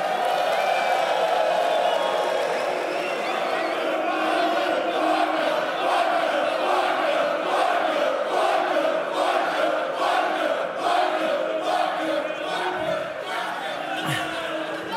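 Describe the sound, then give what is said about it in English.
A crowd of hundreds chants insults in a rhythmic, pulsing roar at a live show at the EICC in Edinburgh, loud and sustained, with cheering and shouts mixed in. “Thing I never thought I'd say is that hundreds of people calling you a wanker is absolutely exhilarating.”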